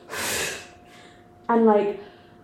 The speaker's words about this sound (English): And then I just exhaled and I just, like, threw my body, like, forward in a forward fold. And I'll breathe out how I did now.